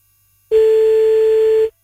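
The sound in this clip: A single steady ringback tone on a telephone line while calling someone back. One sustained, even, mid-pitched beep lasting about a second, heard alone.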